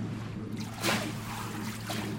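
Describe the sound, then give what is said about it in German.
A small wave in a wave channel spills onto an artificial beach with a faint, soft splash and a brief trickle, over a steady low hum. “Schließlich schlägt die Welle auf dem künstlichen Strand auf.”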